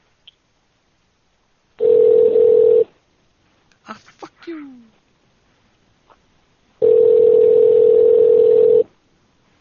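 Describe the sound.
A telephone tone sounds while a call is being placed: two long, steady, mid-pitched bursts separated by a few seconds of quiet, with a person briefly speaking between them.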